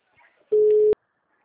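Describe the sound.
A telephone call tone: one steady, mid-pitched electronic beep about half a second long that cuts off abruptly, preceded by a faint murmur.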